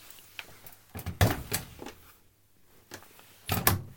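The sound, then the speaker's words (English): A washing machine door being opened and shut, heard as a few hollow clunks and knocks, ending in a louder thump. “That's the sound of the washing machine door opening and shutting.”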